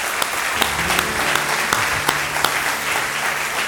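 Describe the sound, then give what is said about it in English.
Church audience applauding to welcome a pastor to the stage, a full, sustained burst of clapping with a few sharper individual claps standing out as it continues evenly throughout. “So let's put our hands together big time and welcome Pastor Matthew.”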